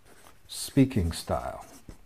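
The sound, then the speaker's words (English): Marker strokes on a board, a few short squeaky scratches sounding alongside a speaking voice during a talk on speaking style. “And I won't be writing all of these on the board, but I will write some.”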